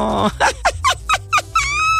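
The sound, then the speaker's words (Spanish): A dog yelps and whines in a quick run of short, high, squeaky bursts, ending in a drawn-out whine, loud and close. “¡Ay, perrito!”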